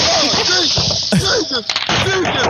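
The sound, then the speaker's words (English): Fireworks go off in a parking lot, a few sharp crackling bangs breaking through over people talking loudly. “this dude just letting off fireworks oh. In like a parking lot.”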